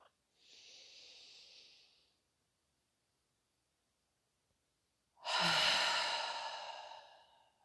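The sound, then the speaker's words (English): A deep breath drawn in, heard as two airy breath sounds with no talk: a softer hiss first, then after a long pause a louder, fuller rush of air that slowly fades. “Breathe in.”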